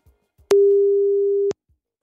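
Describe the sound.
A telephone ringing signal while calling someone: a single steady, mid-pitched tone lasting about one second, starting and stopping abruptly, with near silence and a few faint soft thumps around it.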